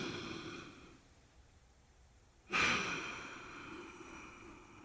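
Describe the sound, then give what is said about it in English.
A deep breath taken just before a story reading begins: a sudden airy rush after a near-silent stretch, then a long, faint, breathy tail that slowly fades. “Let's take that deep breath.”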